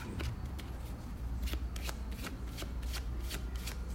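A deck of cards is shuffled before being cut, a steady papery riffling with many quick crisp flutters running throughout.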